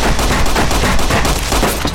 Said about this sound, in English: Alright, this guy's hitting me with a lot of bullets.